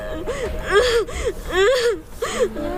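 A frightened little child cries after being separated from a stranger posing as a grandmother, while a police officer is on hand. High, wavering sobs come in a series of bursts with short catching breaths between them.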